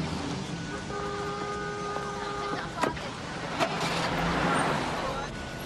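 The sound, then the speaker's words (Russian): A police car's engine starting up: a couple of sharp clicks, then a swelling broad rumble that grows louder before easing off. “Сидевший в машине неподалеку полицейский заводит машину, берет рацию.”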